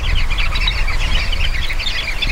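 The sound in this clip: A flock of highly social birds chatters without pause, its dense overlapping high chirps and twitters forming a loud, busy babble over a low background rumble.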